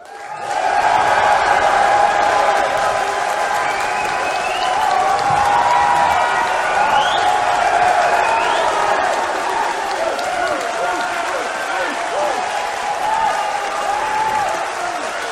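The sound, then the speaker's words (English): Applause and cheering from a live audience at a professional wrestling event, a loud, dense roar of clapping and shouting that holds steady for the whole stretch without dropping away. “I want you to make some noise for how much you respect professional wrestling.”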